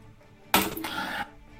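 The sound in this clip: Nine dice rolled together during a tabletop role-playing game make a single short, dense clattering rattle that stops abruptly, heard alone with no voices.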